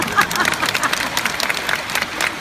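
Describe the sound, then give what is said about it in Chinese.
Applause from a group of people: dense, steady clapping that fills about two and a half seconds at an even, moderate level, with no clear pauses. “鼓掌”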